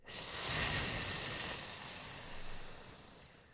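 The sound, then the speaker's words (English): Sustained hissing 'sss' made by a person breathing out, one long, bright, airy stream that starts abruptly, peaks early and slowly fades over several seconds, heard alone without talk. “Breathe in through your nose. And make the S sound when you breathe out.”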